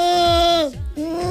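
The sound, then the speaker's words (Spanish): A human voice imitates a bleating goat with a wavering, nasal, sustained bleat that briefly breaks off before resuming at a steady pitch. “Claro, pensaba que sí, que parece una cabra huérfana.”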